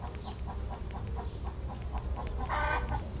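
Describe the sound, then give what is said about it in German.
A colorful rooster gives a short, loud, harsh crowing call near the end, preceded by faint, evenly spaced clucking ticks and no talk. “der bunte Hahn, pirscht sich auf leisen Sohlen an. Er lächelt und kräht entzückt.”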